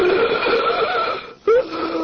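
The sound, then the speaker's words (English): Wheezing breath of an asthma attack: a sustained, whistling, strained breath cuts off briefly, then a harsh, rising wheezy gasp follows before the raspy breathing carries on. “This is the sound of an asthma attack.”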